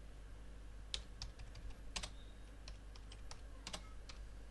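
Typing a comment on a computer keyboard: an irregular run of many soft, quick key clicks with brief pauses between bursts, faint and with no voices.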